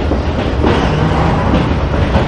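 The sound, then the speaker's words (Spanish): A moving passenger train gives a loud, continuous low rumble with steady wheel clatter, heard from a carriage where travellers sit, and no voices. “El tren está parado en una estación.”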